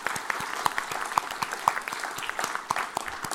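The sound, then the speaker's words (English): A morning audience at the New York Historical Society applauds, giving a few seconds of moderate clapping in which individual sharp claps stand out within a steady patter. “Let's give them all a hand.”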